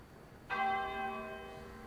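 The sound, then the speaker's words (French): A single church bell stroke sounds out with a sudden bright strike and a rich, lingering hum that slowly fades. “Les cloches sonnent, lentes, lentes, arrêtant tout, le soleil, les drapeaux, les bruits, mes pensées.”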